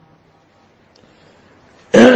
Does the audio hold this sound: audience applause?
no